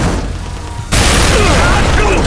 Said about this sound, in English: The explosion blew Garin back into the bathroom and slammed the door shut.